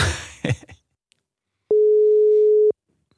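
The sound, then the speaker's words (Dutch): A telephone ringing tone plays while a call is placed: one steady, mid-pitched electronic beep lasting about a second, clean and alone after a few brief noises. “En die gaan we nu even bellen.”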